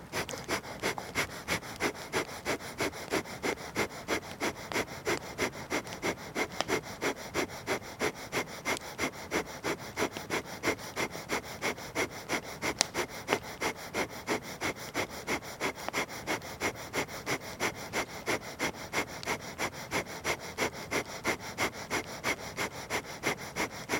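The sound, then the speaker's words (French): Pranayama breathing through the right nostril during a new moon session: many quick, sharp nasal breaths in a steady, unbroken rhythm, faint and alone, with no talk. “Changez de narine, bouchez la narine gauche. Poursuivez avec la narine droite.”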